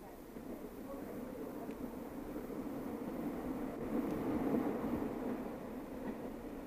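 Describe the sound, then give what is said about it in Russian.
Staged sound effect of a train pulling into a station on the line to Leningrad: a steady, dense low rumble of wheels and carriages that swells slightly toward the middle and holds on to the end. “следующей станции конечная остановка Ленинград. Ну, давай на выход.”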